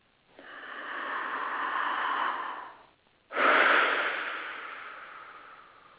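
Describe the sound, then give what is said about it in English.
A deep breath taken during a guided breathing exercise: a long, steady inhale of about two seconds, a short pause, then a louder exhale that starts strong and slowly fades. No talking is heard. “let's take this deep breath and breathe into making that a reality.”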